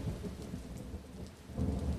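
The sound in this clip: Heavy rain pours at night while low thunder rumbles beneath it, the rumble swelling louder toward the end of the short stretch.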